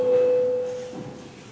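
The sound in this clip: Bell signalling a vote in a parliament session, heard as a single steady electronic tone held for under a second, then giving way to a low background hum.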